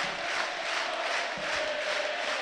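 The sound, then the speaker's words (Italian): The football crowd at the Tardini stadium urges Parma on in the closing minutes of a match: a steady, fairly faint roar of massed voices and applause with a sustained tone running underneath. “L'applauso del Tardini che spinge il Parma in questo finale di gara.”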